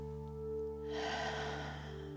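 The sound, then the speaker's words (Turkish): A deep breath in through the nose, then a long, audible breath out through the mouth, breathy and soft over a steady sustained tonal drone. “bir derin nefes al burundan ve rahat bir şekilde ağzından sesli olarak ver.”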